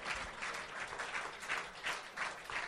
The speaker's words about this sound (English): How many of you guys in the audience have ever heard of this show before or seen it before at all? By making noise, not by raising your fucking hands.